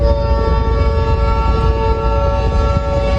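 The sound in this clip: A train approaching a level crossing in Afyonkarahisar, Turkey, where lowered barriers had trapped a truck on the rails. A steady, loud rumble runs throughout with sustained horn-like tones over it.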